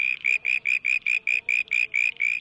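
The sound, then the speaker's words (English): A male southern brown tree frog calls in a steady series of about eleven short, high, buzzy pulses, evenly spaced and moderately loud, with no voices present. “That's the sound of a male southern brown tree frog looking for a date.”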